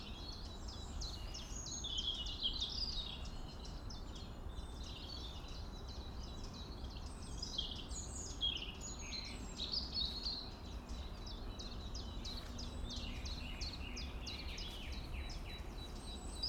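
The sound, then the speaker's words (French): A blue tit sings amid a busy chorus of other birds. High chirps and trills repeat throughout over a constant low background rumble. “Et là, une mésange bleue.”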